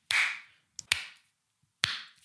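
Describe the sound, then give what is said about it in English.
Three sharp hand claps made to sync a recording, spaced roughly a second apart. Each is a crisp, loud smack with a short decaying tail, heard alone without talk. “Do some sync claps a sec.”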